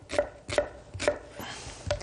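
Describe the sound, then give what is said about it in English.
A knife chops an onion into medium dice for a vegetable lentil stew, with a few sharp, crisp strikes on the board, irregularly spaced and fairly faint, with no talk over them. “So first, for any kind of a stew, is a nice onion, just to get it going. And we'll put the gas on, get that heating up. And we'll just chop it up”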